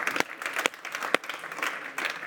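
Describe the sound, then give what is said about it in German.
Scattered clapping from a church audience welcoming first-time visitors. A few sharp, distinct claps stand out over a softer, uneven patter. “Lasst uns ihnen einen herzlichen Applaus geben.”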